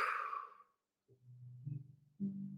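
A single breathy exhale through an open mouth during a guided breathing exercise, loud at first and fading out within a second, followed by quieter low sounds.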